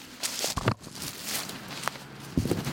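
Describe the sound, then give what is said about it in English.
Footsteps of people walking crouched through head-high brush and spindly trees, heard as a few soft rustling, crunching steps spread across a faint, even background. “We crouch down and walk more than 100 yards, passing through brush that goes over our heads and trees with spindly branches that reach out for us like”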